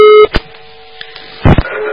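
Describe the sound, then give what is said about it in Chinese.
A steady telephone tone on a call that fails to get through during a radio call-in, cut off by a few sharp clicks and thumps before the tone faintly resumes. No voices are present. “这个电话也没打到底。好了，没办法了，只能再换一个听众了。”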